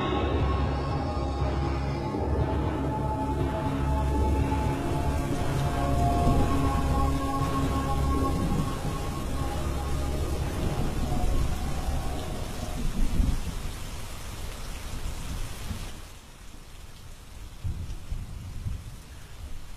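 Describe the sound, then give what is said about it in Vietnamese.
Heavy rain pours down steadily in a loud, dense wash with rumbling low-end weight like thunder, continuous throughout before easing slightly near the end. “Trên bầu trời mưa như thác đổ.”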